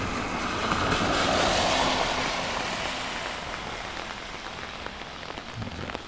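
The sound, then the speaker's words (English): Rain falling on an umbrella during a field-recording walk: a dense, steady patter and hiss of drops, slightly louder early on and then easing to an even level. “Of course, I bet you're hearing right now is mostly the umbrella.”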